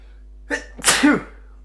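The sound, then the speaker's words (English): A person who is sick sneezes: a short sharp intake, then one loud, explosive burst that trails off into quiet. “I'm going to sneeze.”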